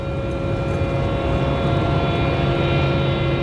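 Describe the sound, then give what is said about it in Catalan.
A constant deep hum fills a compressor room: dense, unchanging machine drone with steady tonal whine lines layered over a rumbling low end, loud and continuous throughout. “Eixe so que escoltem de fons és el de la sala de compressors on tota l'electricitat necessària per a tan monumental tasca es tradueix en un so constant, profund i homogeni.”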